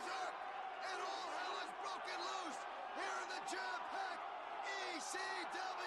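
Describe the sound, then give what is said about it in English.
A rowdy crowd at an ECW wrestling event roars steadily throughout, with loud shouts and whoops rising above the dense noise while voices talk over it. “The rowdiness of the crowd has certainly picked up.”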